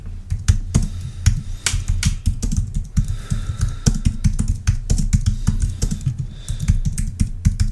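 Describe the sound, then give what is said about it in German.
Typing on a computer keyboard: a rapid, steady stream of many crisp plastic key clicks at an uneven rhythm, fairly loud and continuous with no talking. “Soll ich das so schreiben? Schreib, der Rhein fließt nicht durch Duisburg.”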